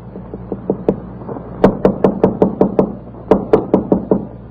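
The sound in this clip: Knocking on a door: many sharp raps in three quick bursts separated by short pauses. The first burst is soft, and the later two are louder and more insistent.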